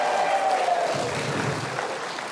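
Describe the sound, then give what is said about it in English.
Audience applause after a live musical performance: a steady wash of clapping from a crowd that eases off slightly toward the end. “How about a big hand for Trey Corley in the Music City Connection with the great music tonight.”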